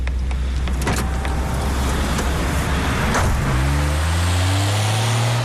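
A car arrives to pick someone up, its engine running steadily throughout, and a whirring electric motor, like a power window, joins in for the last two seconds.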